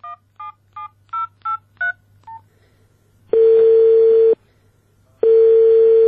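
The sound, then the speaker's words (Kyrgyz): A telephone number from a spice advertisement is dialed with seven short touch-tone beeps in quick succession, followed by two long, steady ringing tones separated by a pause. “Биз андагы телефон номурлардын бирине байланышып көрдүк.”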